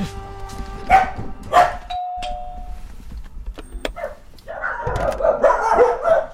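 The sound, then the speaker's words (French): A two-tone ding-dong doorbell rings at a home's front door, and a few seconds later dogs break into a burst of excited barking and yipping. “Je vais sonner.”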